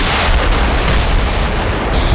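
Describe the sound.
Heavy artillery laying down covering fire against advancing tanks, a dense, continuous roar of booms and blasts that stays loud throughout, with no clearly separate shots.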